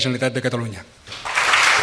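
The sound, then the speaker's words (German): Applause from independence-party deputies in the Catalan parliament, greeting Quim Torra's election as regional president, breaks out as a dense wash of clapping right after a voice speaks. “Applaus seiner Anhänger, der Abgeordneten der beiden großen Unabhängigkeitsparteien, die für Torra gestimmt haben.”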